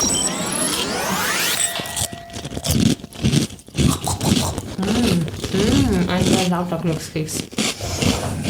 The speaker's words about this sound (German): Ein sehr lauter Glückskeks. Verdammt laut.